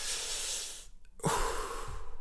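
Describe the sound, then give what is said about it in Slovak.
Slow breathing in and out, as in a calming breath exercise: a soft, airy inhale, a brief silent pause, then a breathy exhale, quiet and with no talk. “Nádych, výdych.”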